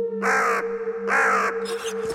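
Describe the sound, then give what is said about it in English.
A crow squawks with harsh, raspy caws: two loud calls, then fainter, shorter ones, over a steady low hum. “And the crow in the middle just kind of turns and starts squawking at us.”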